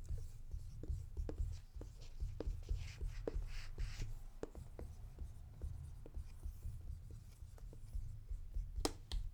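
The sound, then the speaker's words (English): Pen scratching on paper as a guess is written down: many quick, faint strokes and light taps in an uneven rhythm, with a sharper tick near the end. “So go ahead and write your guess.”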